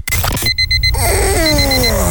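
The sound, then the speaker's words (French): An electronic alarm clock goes off with a quick run of sharp, high beeps, followed by ringing electronic tones that continue loudly to the end. “Tu croyais pouvoir repousser ton réveil? Encore 5 minutes.”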